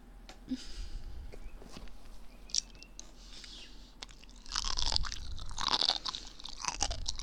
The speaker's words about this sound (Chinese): 哎呀，那我再吃一点吧。哎，为了你们呀，我就再吃一点吧。